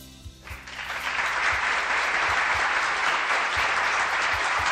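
Steady applause welcoming a guest, a dense wash of clapping that swells within the first second and then holds loud and even to the end.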